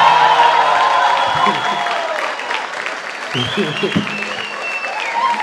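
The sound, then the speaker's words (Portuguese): Audience applause and cheering at a stand-up comedy show as a comedian is welcomed on stage, loud clapping that thins slightly midway, with voices calling out over it. “eu queria que vocês recebessem com a salva de palmas Santiago Melo, senhoras e senhores!”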